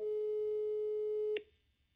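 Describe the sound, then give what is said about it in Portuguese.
Telephone ringback tone while placing a call, a single steady mid-pitched tone lasting just over a second before cutting off with a click, then near quiet. “Vou ligar à minha mãe.”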